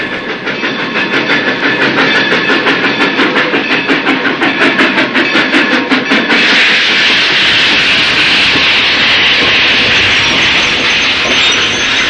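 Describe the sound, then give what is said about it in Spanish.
Steam train pulling into a station in Kiel, beside the sea: a loud, steady rhythmic clickety-clack of wheels for about six seconds, then a continuous broad hiss of steam that carries on to the end, with no voices. “A las 3 horas de nuestra partida, el tren se detenía en Kiel, a 2 pasos del mar.”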